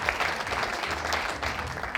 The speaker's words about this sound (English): give her a round of applause, please